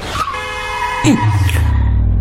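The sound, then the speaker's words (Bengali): A car horn blares in a sustained, bright harmonic blast as the car approaches and passes close by. A lower rumble follows as it moves away. “হর্নের তীব্র আওয়াজে ওদের কান বন্ধ হয়ে যায়, মুহূর্তে পাশ কাটিয়ে পেছনে সরে যায় গাড়িটা।”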